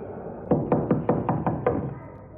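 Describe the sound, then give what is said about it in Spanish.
Rapid knocking on the door of a man's home, seven evenly spaced knuckle raps in quick succession, fairly loud and alone over a low steady background. “Más tarde llama a la puerta de Diego.”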